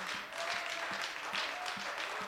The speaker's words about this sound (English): Why don't we applaud the Lord for his goodness?